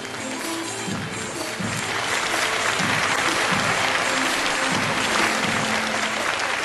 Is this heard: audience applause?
yes

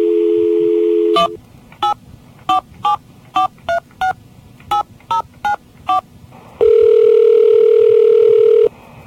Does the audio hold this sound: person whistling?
no

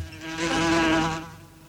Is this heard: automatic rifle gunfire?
no

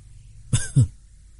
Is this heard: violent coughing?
yes

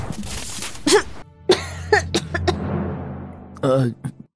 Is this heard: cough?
yes

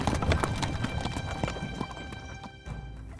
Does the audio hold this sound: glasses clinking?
no

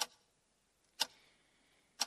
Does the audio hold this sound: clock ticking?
yes

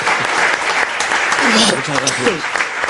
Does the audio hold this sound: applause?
yes

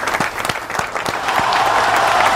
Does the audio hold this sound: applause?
yes

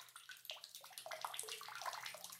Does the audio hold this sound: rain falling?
no

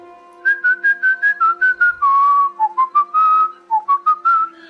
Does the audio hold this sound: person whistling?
yes

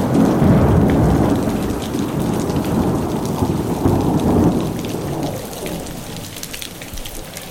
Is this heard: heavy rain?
yes

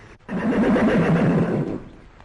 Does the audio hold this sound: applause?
no

